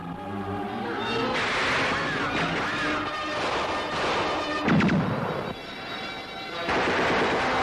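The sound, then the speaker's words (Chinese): Gunfire and exploding landmines and grenades in a battle make a dense, continuous roar of shots and bangs, with a few heavier blasts standing out. “对松井的接待是从地雷开始的，没有随着地雷上天的敌人，就请你享受着仇恨的子弹，尝尝手榴弹的滋味吧。”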